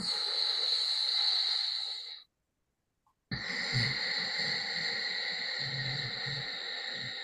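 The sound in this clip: Slow, deep breathing with a soft sound in the throat during a calming breath exercise: one long breath, a short silence, then another long, hissing breath.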